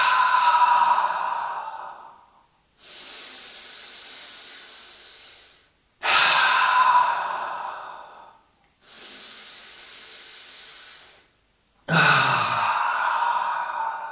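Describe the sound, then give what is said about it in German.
Slow, deep breathing during a guided breathing exercise: three loud, airy breaths alternate with two softer, hissing ones, each lasting a few seconds, in a steady, unhurried rhythm with no talking. “Los geht's. Eins, einatmen.”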